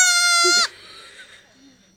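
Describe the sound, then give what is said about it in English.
A baby goat screams with one loud, high, strained bleat that holds for about half a second and cuts off abruptly. Faint, low rustling sounds follow. “Who knew that this is the sound of a baby goat?”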